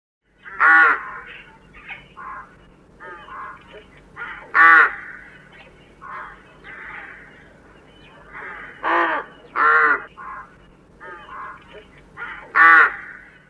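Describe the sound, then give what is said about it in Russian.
Harsh, raspy caws of a calling rook, several loud calls spaced irregularly among softer, shorter croaks over a low steady hum. “Грач.”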